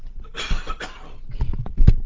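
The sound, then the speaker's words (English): A person coughs after taking off a headset, with a few rough, harsh bursts that rise and fall unevenly, the last one sharpest and loudest, and no words spoken. “I have to take the headset off and have a little wee cough here in just a moment.”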